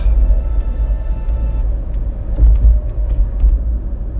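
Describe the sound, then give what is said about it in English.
A car drives on the road during a road trip toward Stockton, giving a steady, loud low rumble of engine and tyre noise that runs unbroken throughout, with faint higher tones above and no voices. “No, we're driving to Stockton right now.”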